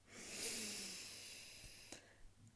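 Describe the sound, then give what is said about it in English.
A long, deep breath drawn during a calm guided moment: a soft, airy hiss swells early, then slowly tapers away over about two seconds, followed by a few faint small noises. “Let's take a deep breath on it.”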